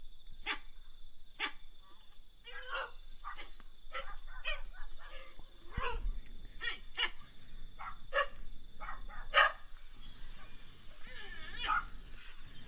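A person imitates a dog, producing many short, sharp barks and yips mixed with whiny whimpering sounds in an irregular run over steady background noise.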